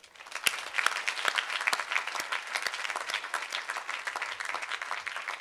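Audience applause at a Cornell University welcome in Ithaca: dense, steady clapping that swells in the first moment and then holds at an even, full level throughout.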